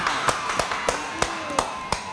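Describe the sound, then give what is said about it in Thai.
Hands clap for a contestant at a stage event in Thailand: about seven sharp, fairly soft claps in an even, steady rhythm. “ขอจะปรบมือให้โบนัสหน่อยค่ะ”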